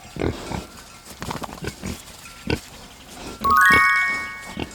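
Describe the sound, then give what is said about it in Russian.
A pig grunts in a run of short, low, snorting bursts with uneven spacing. Near the end, a bright, ringing chime with several tones briefly rises over the grunts. “Свинья.”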